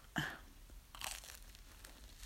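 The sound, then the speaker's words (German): Faint crunching and chewing from someone eating nougat cream, with a sharp crunchy bite near the start and a second, longer burst of crunching about a second later, then quiet munching. “jetzt esse ich nur Nougat-Creme”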